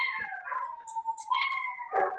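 Dogs howl in one long, sustained, wavering tone that stays loud and steady for about two seconds, heard alone with no talking.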